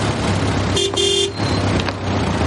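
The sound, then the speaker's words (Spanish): Street traffic as a taxi drops off two passengers: a steady road rumble throughout, with a short car horn toot in the middle. “Más tarde los dos se bajan de un taxi.”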